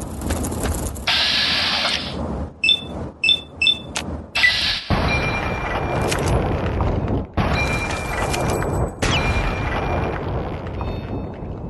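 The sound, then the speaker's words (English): Video game gunfire aimed at a rad scorpion: a few sharp, loud shots with clicking and mechanical sounds between them, over a continuous noisy rumble. “Took three shots. So actually, the Rad Scorpion, I guess just because of armor, actually took three shots”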